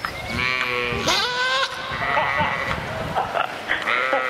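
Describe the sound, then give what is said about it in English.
Goats from a goat beauty contest bleat repeatedly, with several wavering, nasal cries of varying pitch overlapping one another against a steady background of farmyard noise. “That was the sound of some very glamorous goats.”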